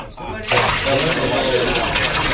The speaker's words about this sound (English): Pour four more barrels of water over the bullock, the wood, and the altar.